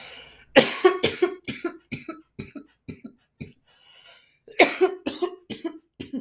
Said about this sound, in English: pardon guys, and you already know I start coughing